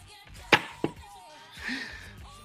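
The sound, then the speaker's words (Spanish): Knocking on a table during a mock séance: two sharp knocks in quick succession, the first louder than the second, against a quiet background. “Creador de la Constitución, si estás ahí, ¿puedes golpear una vez la mesa, por favor?”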